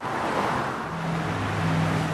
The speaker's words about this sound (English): Of the cars whizzing by on a typical American highway, one in every 500 or so are going to be VW diesels